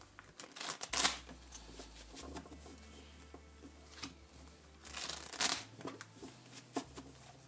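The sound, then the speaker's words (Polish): Tarot cards being shuffled by hand, a papery riffling and rustling that rises into a few louder, crisp bursts separated by quieter stretches of soft card handling. “Teraz karty Tarota. Tasuję.”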